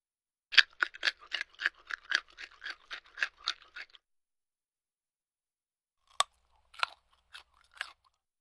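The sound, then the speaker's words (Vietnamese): Crisp crunching of grilled, crispy bacon being bitten and chewed: a rapid run of about a dozen sharp, dry crackles, then a pause and a few scattered louder crunches, fairly quiet with no talking. “Câu ví dụ của anh Duy Khánh có thể hiểu là thịt xông khói đã được nướng giòn tan, dùng để diễn tả thứ gì đó không còn nước, nhẹ và giòn khi cắn.”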